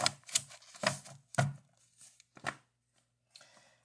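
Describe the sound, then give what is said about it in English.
A tarot deck being cut: a series of crisp papery slaps and taps of cards, irregularly spaced, easing into a softer rustle at the end. “All right, we're going to cut the deck, and we have”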